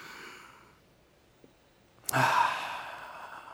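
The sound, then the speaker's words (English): An audience breathing in deeply together, heard as a single loud, breathy, sigh-like rush of air after a quiet stretch, with no talk. “I want everybody to just breathe in.”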